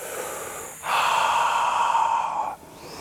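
Deep breathing during an exercise workout: one long, loud, airy breath of nearly two seconds, with softer breath noise before and after it.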